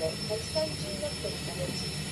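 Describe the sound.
The steady jet-engine drone of an airplane trying to land during a video game flight mission, a continuous even roar with faint higher tones above it.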